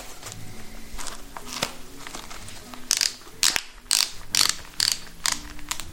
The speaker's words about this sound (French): Serrage des chaussures? C'est ça, ouais. On les serre bien pour bien qu'elles tiennent aux pieds.